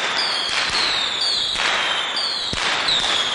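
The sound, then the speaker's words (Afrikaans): Fireworks as big fireballs are shot high into the sky: whistling tones sliding slightly downward, punctuated by about three sharp cracks over a steady hiss. “Die vuurpyl mannetjie trek sy asem diep in en skiet 'n paar groot vuurballe hoog die lug in op.”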